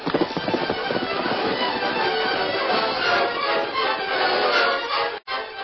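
The horse Silver galloping away in a radio drama sound effect, a loud, dense run of clattering hoofbeats that continues without pause before a brief drop near the end.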